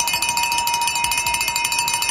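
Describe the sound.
A cowbell is rung repeatedly for a birthday. It gives a fast, steady run of many bright metallic clanks at an even rhythm.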